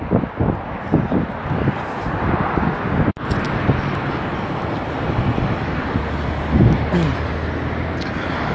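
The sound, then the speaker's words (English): Outdoor street traffic heard while walking home from public transport: a continuous roar of passing vehicles mixed with buffeting wind noise, with a low engine rumble rising near the end. “Okay, I just got off the public transportation vehicle and I'm walking back home.”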